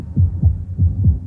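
Heart thudding: four deep, low beats arranged in two lub-dub pairs, each thud short and heavy with a steady, throbbing rhythm and nothing else heard alongside.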